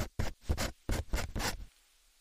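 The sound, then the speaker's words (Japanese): A pen scratches across paper while writing sentences, a few quick, dry scratchy strokes in short bursts that stop near the end. “文を書く。サラサラサラ。文章を書く。サラサラサラサラ。”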